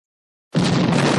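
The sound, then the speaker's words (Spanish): A cannon fired from HMS Victory at the Battle of Trafalgar, a gun throwing 30-kilo shot: silence breaks into a sudden loud boom that carries on as a sustained roar to the end. “Disparaban proyectiles de 30 kilos. Eran armas muy potentes, pero alcanzaban poca distancia. Ese fue el primer cañón que se disparó desde el Victory en la batalla de Trafalgar.”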